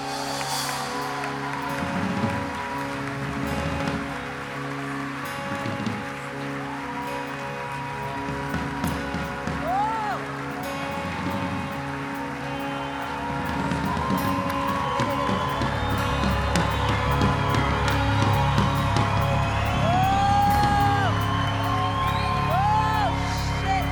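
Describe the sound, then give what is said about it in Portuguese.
An audience applauding and cheering in a church service, with sustained clapping and scattered whoops. The noise swells slightly toward the end. “Aplauda o Senhor, porque Deus é maravilhoso.”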